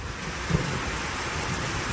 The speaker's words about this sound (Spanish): Se pueden repetir hoy escenas como esa tromba de agua que ayer inundaba las calles de Sevilla que escuchabas